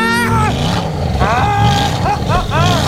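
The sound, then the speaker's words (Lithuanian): A voice imitates a sports car engine driving fast, with loud, buzzy revving whoops that repeatedly swoop up and down in pitch over a continuous rumble. “Mat maždaug taip skamba tas sportinis automobilis.”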